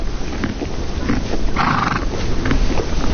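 A horse at a trainer's stable, its sounds set in a steady rough rumble, with a brief brighter whinny-like burst just past the midpoint.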